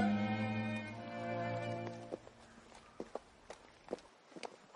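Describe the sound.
Uneven footsteps of a woman walking with difficulty across a riverside meadow toward a mountain road, holding someone's hand. Several soft, irregular steps follow a fading sustained tonal hum.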